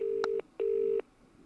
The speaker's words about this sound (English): Rings like a normal UK phone.